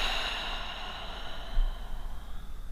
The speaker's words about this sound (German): atme tief durch die Nase ein. Und atme einmal entspannt über den geöffneten Mund aus.